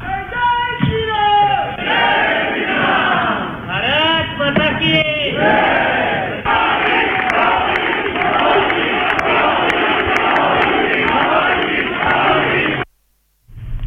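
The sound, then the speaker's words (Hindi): Crowd of the Indian community in France chanting welcome slogans for a visiting prime minister: many voices shout loud, rhythmic slogans almost without pause, then cut off briefly near the end before resuming. “France में भारतीय बिरादरी ने बोंजोर मोदी या hello Modi और भारत माता की जय के नारों के साथ वज़ीर-ए-आज़म नरेंद्र मोदी का खैर मकदम किया।”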